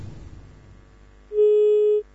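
A telephone busy tone sounds after a call is cut off: one steady, mid-pitched beep lasting under a second, following a stretch of faint line hiss.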